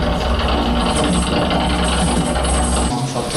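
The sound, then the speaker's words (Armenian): A worn-out, aged elevator mechanism in Armenia creaks and clanks in a loud, continuous grinding rattle of dense, rapid ratcheting clicks that barely lets up throughout. “Հայաստանում գործող վերելակների 90%-ի օգտագործման ժամկետն արդեն սպառվել է։ Վերելակներում անգամ երկու անգամ սեղմում ես երկրորդ հարկ, որ հասնես առաջին, որոշներից անգամ այսպիսի ձայն է գալիս։”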